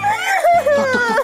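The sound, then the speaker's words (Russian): A schoolgirl crying, a brief burst of high, wavering sobbing voice that breaks and trembles for just over a second. “Слезами делу все равно не поможешь. Ну не поможешь слезами, прекрати плакать.”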